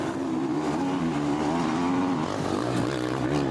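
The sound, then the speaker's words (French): A race car engine revving hard during a race gives a dense, loud, continuous buzzing drone with a slightly wavering pitch and no pause. “Il a tenté le coup du rupteur. Il l'a vu embrayer et mettre un gros coup de gaz.”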